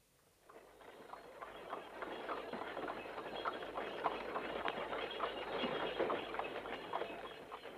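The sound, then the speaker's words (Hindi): Hooves clip-clop from a horse-drawn tanga cart on the move, a steady run of quiet hoofbeats over a continuous rolling rumble with no voices. “रजा मकान देखने गया और तांगा रजा के घर की तरफ चला।”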